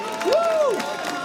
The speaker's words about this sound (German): Und einem Applaus von ganz Übelbach für Billy Steirisch, meine Damen und Herren.